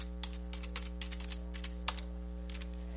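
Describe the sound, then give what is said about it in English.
Fingers type on a computer keyboard to enter a Google search, producing many quick, irregular clicks in short bursts over a steady low electrical hum. “Okay, now I'm going to type in Google.”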